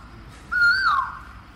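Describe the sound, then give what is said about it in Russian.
A single sweet, drawn-out whistled call from a Vrindavan cuckoo. The smooth tone rises slightly, then slides down, standing alone over a faint background hush. “Да, это вриндаванские кукушки. Они не совсем похожи на русских. У них гораздо более сладкие голоса.”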